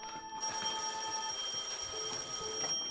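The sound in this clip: A telephone bell rings with a bright, trilling, metallic tone. The steady ringing fills nearly the whole moment before cutting off near the end.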